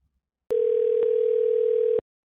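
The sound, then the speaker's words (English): Telephone dial tone: a steady, single-pitched hum lasting about one and a half seconds, loud and alone, with small clicks at its start, middle and end. “dialing the phone number”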